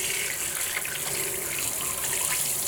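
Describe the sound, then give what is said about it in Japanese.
Running water rinses shampoo out of hair in a loud, steady, unbroken gush that lasts the whole time, with no voices. “シャンプー流していくね。”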